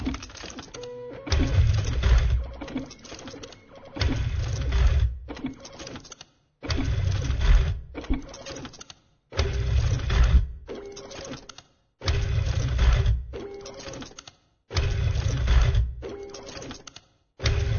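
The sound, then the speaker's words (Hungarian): Music played on a dot matrix printer: rhythmic, buzzing print-head clatter in repeated bursts of a few seconds each, separated by short pauses, with a steady mechanical pulse and no voices. “Matrix nyomtató.”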